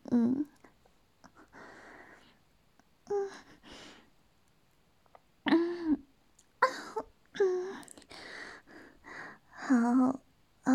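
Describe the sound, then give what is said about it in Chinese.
Throat clearing from someone with a cold and a sore throat: a few short, rough vocal bursts and breathy noises separated by pauses, fairly faint. “清了个嗓子，这两天感冒，嗓子有点不舒服。”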